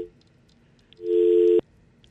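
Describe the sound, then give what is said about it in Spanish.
A telephone busy tone sounds as a phone call drops: one loud, steady, mid-pitched beep lasting about half a second, which cuts off abruptly over a faint background hiss. “Se están cayendo la llamada.”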